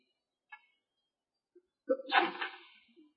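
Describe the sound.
A single human sneeze during a religious lesson, a short sharp burst after a couple of faint small sounds, otherwise quiet.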